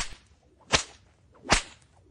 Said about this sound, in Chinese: 好啊，那妈妈 就换更粗的鞭子来伺候你